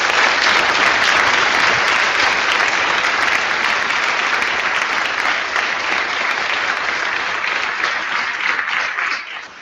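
Applause from a conference audience: dense, continuous clapping that holds steady and loud throughout, easing slightly just before the end.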